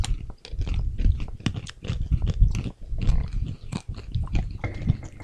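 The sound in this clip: Crunchy chewing of coconut-cream-flavored peanuts from a Thai snack box, with loud, steady crunching and munching bites continuing throughout without pause.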